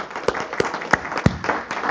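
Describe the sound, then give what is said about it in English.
Audience applause in a church gathering: many hands clapping at a steady, moderately loud level, with a few sharper claps standing out from the wash. No one speaks. “I'm glad you're clapping”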